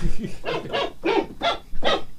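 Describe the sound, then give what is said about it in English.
A dog barks in a quick, loud run of sharp, evenly spaced barks with no other sound between them. “Sorry, it's the dog.”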